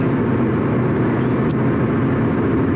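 A car driving, heard from inside, gives a steady, loud low road rumble and engine drone that stays even throughout.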